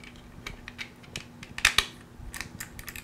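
USB cable connectors clicking into place, with many small sharp plastic clicks at an irregular pace and two louder snaps near the middle, fairly faint throughout.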